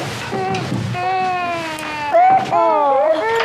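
A baby cries in sustained, wavering wails that bend up and down in pitch and grow louder toward the end, with some muffled sounds at the start.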